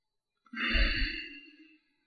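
A single slow, deep breath taken during a counted deep-breathing exercise, swelling quickly and then tapering off gently over about a second, with a soft airy hiss and a low breathy rumble.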